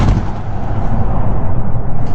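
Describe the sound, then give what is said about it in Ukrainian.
Explosions and gunfire ring out in Kyiv as Russian tanks and trucks approach. The barrage is a dense, continuous run of loud, rapid booms and cracks with no clear gaps. “Вибухи та стрілянина у столиці України Києві, коли наближаються російські танки та вантажівки”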